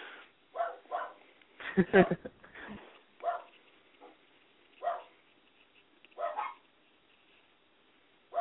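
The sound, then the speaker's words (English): A dog barks many times in irregular bursts. One louder, denser cluster of barks comes early, and scattered single barks follow. The sound is thin and band-limited. “your dog is going crazy. Yeah, you're just supposed to ignore that and continue talking. Pretty much. Because that dog don't ever shut up.”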